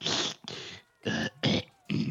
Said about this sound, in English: Anya sort of centers herself and sort of clears her throat a few times to try and deepen her voice